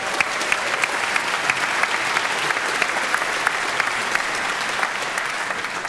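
Audience applause in an ovation after a musical performance: many hands clapping in a dense, steady, sustained wash that stays loud and even throughout.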